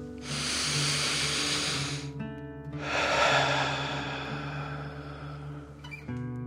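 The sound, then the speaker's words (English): Slow breathing in and out during a calming breathing exercise: two long, soft airy rushes of breath, each lasting a couple of seconds, over a faint steady background tone. “And then breathe out, pretending fire is coming out of your mouth. Ready? Breathe in and out.”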